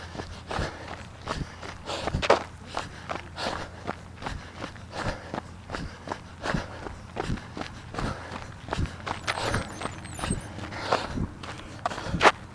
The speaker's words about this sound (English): That was, I don't know if that was a walk or a break, but I'm gonna walk just a bit.